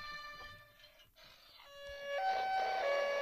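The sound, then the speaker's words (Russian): Ambulance siren: steady electronic harmonic tones that start partway in, then shift up and back down in pitch, growing louder toward the end. “Скорая. Это скорая.”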